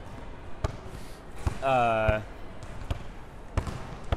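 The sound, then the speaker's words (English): A basketball is dribbled, its sharp, punchy bounces landing several times at uneven intervals. “I'm going to try off a dribble again. But like a behind the back.”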